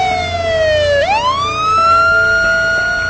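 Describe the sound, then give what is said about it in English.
A police squad car pulls up with its siren wailing loudly. The tone dips, then sweeps back up and holds steady over a low engine rumble. “A squad car pulls up.”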